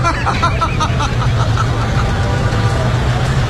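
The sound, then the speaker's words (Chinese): Road traffic in a jam: a steady low rumble of idling vehicle engines that runs throughout, with a murmur of voices beneath it. “我确实是，这是堵车，这是真的堵车，真的。”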